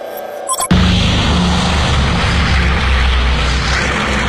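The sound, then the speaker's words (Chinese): Droning engine roar of B-29 Superfortress heavy bombers in flight. After a brief quieter lead-in it starts abruptly and holds loud and steady to the end. “有了硫磺岛作为基地，美国的 B-29 超级堡垒重型轰炸机可以飞往日本了。”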